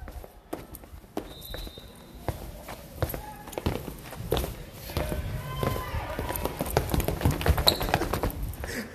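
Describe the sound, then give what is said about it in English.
Close ASMR-style footsteps of feet walking, a run of irregular soft thumps and taps that grows busier, with people talking over them. “All right, we're doing a secret mission. ASMR foot walking.”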